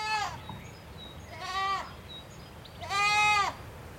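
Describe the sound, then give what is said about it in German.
Young goats raised on bottle and bucket bleating: three wavering, nasal bleats spaced roughly a second and a half apart over faint background hiss, the last one longest and loudest. “Im Hintergrund meckern einige Lämmer, die ich mit Flasche und Eimer großgezogen habe.”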